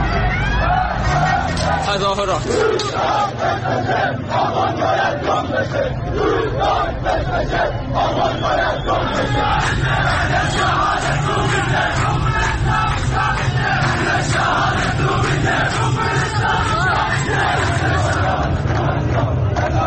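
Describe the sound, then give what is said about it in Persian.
A protest crowd in Iran chanting and shouting in a dense, continuous roar of many voices that stays loud throughout. “همونطوری که شنیدید اگر که شنونده برنامه بودید از دقایقی پیش یا امیدوارم که از ابتدا دنبال کرده باشید، صحبت میکنیم درباره اعتراضات اخیری که در شهرهای مختلف ایران به وقوع پیوست.”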